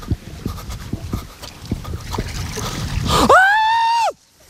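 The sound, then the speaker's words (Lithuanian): Water splashes and sloshes as someone wades into a cold pond at about 13 degrees, with a series of irregular splashes followed by a loud, sustained voiced cry that cuts off abruptly. “Net baisu bristi šitą vandenį, šaltą.”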